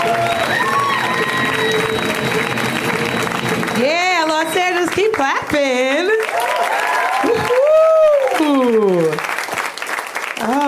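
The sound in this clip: Audience applause welcoming a comedian to the stage: loud, dense clapping fills the opening seconds, then a voice begins talking over the continuing applause until it dies down.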